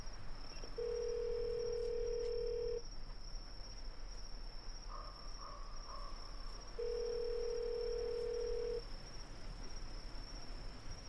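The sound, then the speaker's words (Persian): Outgoing call ringback tone from a mobile phone: two long, steady, mid-pitched tones separated by a few seconds of silence, over a constant high, cricket-like hiss. “تماس میگیره.”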